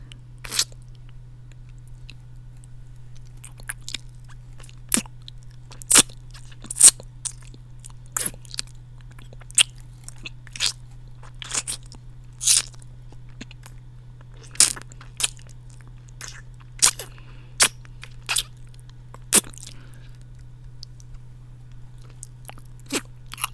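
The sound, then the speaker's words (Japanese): Wet ASMR licking mouth sounds: many brief, sharp smacks and clicks at an irregular pace over a steady low hum, with no talking. “こちらもしっかりペロペロして差し上げますね。”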